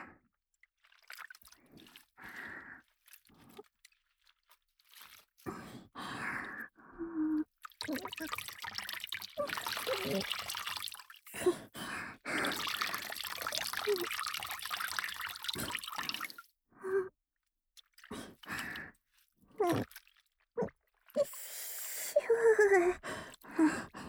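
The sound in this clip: Water trickles and dribbles as a wet oshibori hand towel is wrung out before ear cleaning. Soft, intermittent splashes and drips come in bursts, with breathy voice sounds in between.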